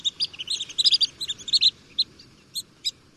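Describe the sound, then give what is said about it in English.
Long-billed dowitcher, a shorebird, giving its high-pitched call: a rapid run of sharp, thin chirps bunched together, then a few spaced single notes. “Here's the high-pitched call of the long-billed dowitcher.”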